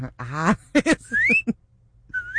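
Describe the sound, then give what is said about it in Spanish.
A wolf whistle: two bright whistled notes that sweep upward in pitch, the second cut short, following brief voiced sounds. “El chiflidito para sus nenas de 100 y menos, mijo.”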